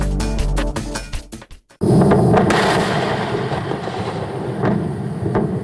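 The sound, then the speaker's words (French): A Falcon 9 rocket explodes on the launch pad at Cape Canaveral: a sudden, loud, sustained roar with rumbling and scattered sharp cracks that continues through to the end. “L'explosion a eu lieu le 1er septembre dernier sur le pas de tir de Cap Canaveral. En quelques secondes, la fusée Falcon 9 s'est désintégrée”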